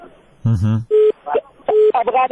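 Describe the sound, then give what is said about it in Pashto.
Line tones from a caller's telephone connection cutting off during a radio call-in show: a few steady, mid-pitched beeps alternate with short fragments of voice over the line. “ستاسو ټلیفون قطع شو”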